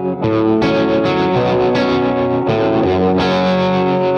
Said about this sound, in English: the Flint here, sure, which is a great pedal, and you know, you've got the trem and the reverb